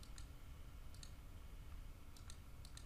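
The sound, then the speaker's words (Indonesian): Faint mouse clicks on an on-screen refresh button in Power View: a few short, sharp ticks spaced irregularly over a low, steady background hum. “untuk merefresh data kita bisa gunakan tombol yang ada di sini, tinggal klik dan datanya akan langsung apply.”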